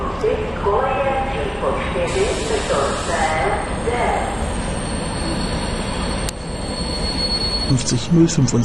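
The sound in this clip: Steady diesel rumble from a modernised class 750.7 railcar fitted with Caterpillar diesel engines, with a sustained high whine over a broad roar and brief wheel squeal toward the end.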